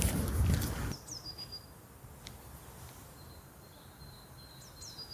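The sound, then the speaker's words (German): Birds chirp outdoors on a former mining spoil heap in Bottrop. After a brief burst of loud rustling noise, faint, high chirps and short whistled notes come in a few scattered bursts over a quiet background. “Ich hoffe, ihr hört die Atmo, das ist Vogelgezwitscher.”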